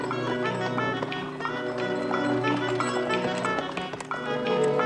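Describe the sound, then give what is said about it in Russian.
Hooves of two horses pulling a covered wagon clip-clop in a steady, fairly quiet rhythm, with many beats running throughout over a busy tonal background. “За ним выезжает кибитка, запряженная двумя лошадьми.”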